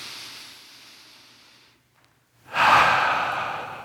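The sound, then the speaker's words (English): A group of people taking a deep breath together: a soft breathy rush fades out, a brief silence follows, then a louder, longer rush of breath slowly tails off. “Everyone take a deep breath with me.”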